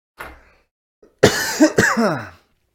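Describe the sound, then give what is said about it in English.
Harsh coughing from vaping: a faint cough, then a loud rough burst of several hacking coughs that slides into strained, throaty sounds. “coughing because of vaping”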